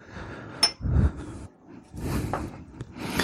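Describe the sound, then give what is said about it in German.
Small baking moulds clink as they are taken out while a pie filling is being prepared: one sharp, bright clink, then softer rattling and scraping handling noises. “Ich hole hier schon mal meine Förmchen her.”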